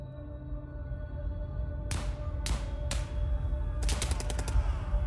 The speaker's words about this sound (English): The shelling had stopped. Their machine guns were still firing.